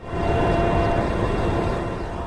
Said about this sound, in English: Looking down from up here inside the helicopter